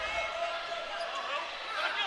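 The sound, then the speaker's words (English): A basketball is dribbled on the court during a women's basketball game, its repeated bounces faint and blurred beneath a steady, bright wash of crowd and arena noise. “Dribbles on the right side. Now goes toward the free throw line.”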